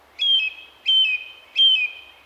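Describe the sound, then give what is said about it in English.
Song thrush singing: a short, high, clear whistled phrase that steps slightly down in pitch, repeated three times at regular intervals with a fourth just beginning, alone against a quiet background. “Repetition is one of the characteristics of the song thrush. Well, yeah, not to say that the blackbird doesn't repeat sometimes as well, but I think the thrush repeats more,”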